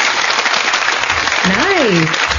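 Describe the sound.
A studio audience applauds in a continuous wash of clapping, while near the end a voice glides up and then down in pitch above it.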